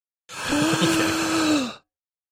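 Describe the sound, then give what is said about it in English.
A person takes a long, deep inhale, performed out loud as a vocal emote. It is a steady breathy rush of about one and a half seconds with a low voiced hum running through it, heard alone. “He or she literally wrote out inhales and then amazing. So I hope my inhale came through right there.”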